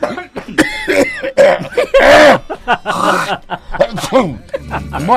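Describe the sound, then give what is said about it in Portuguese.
A loud, exaggerated throat clearing mixed with coughs and voiced grunts, with snickering bursts in a rough, raspy, strained tone. “Limpa a garganta aí, limpa a garganta, vai.”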